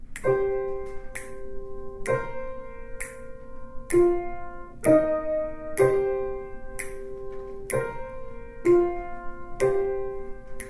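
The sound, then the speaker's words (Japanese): Piano playing a slow, steady line of struck notes about one per second. Each note rings and decays before the next, and the pitch steps up and down. The playing is soft and moderate, with no voices. “ちょっとピアノでこれ全部やってみてもらいます。”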